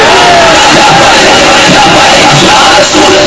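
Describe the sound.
A large crowd shouting the Labbaik slogan at a religious rally, a very loud, continuous mass of yelling voices that holds steady, with a brief dip near the end.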